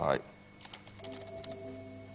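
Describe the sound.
Soft key clicks from typing on a computer keyboard while editing code, quiet and irregular, tapping in a brief cluster over a faint steady hum.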